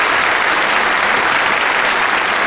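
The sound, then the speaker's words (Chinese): Group applause from personnel at a military base celebration for a flight test team, a steady, dense clatter of many hands clapping without pause. “给我鼓什么掌？一会儿文艺演出队的同志们演得好，唱得好，你们再给他们鼓掌，对不对？”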